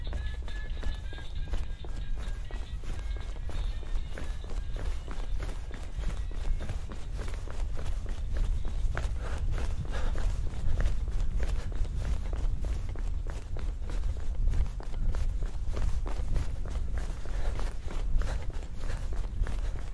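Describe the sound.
Running footsteps patter in a quick, steady rhythm, many light strikes following one after another over a low rumbling background at a fairly even, moderate level.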